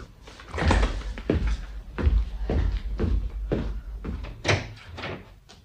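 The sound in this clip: A door in a house being opened, heard as a run of heavy clunks and thuds spread across several seconds, moderately loud and irregularly spaced.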